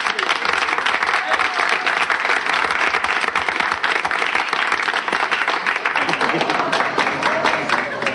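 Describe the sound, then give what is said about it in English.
Audience applause welcoming a comedian onto the stage at a comedy show: loud, continuous clapping that keeps an even, dense texture for the whole stretch. “let's put our hands together and give a nice comedy corner welcome to Mr. Jim Tabaret”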